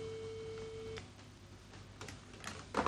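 A telephone ring tone on the line while calling a mobile phone: one steady, mid-pitched tone lasting about a second, then a few faint clicks and line noise ending in a louder crackle.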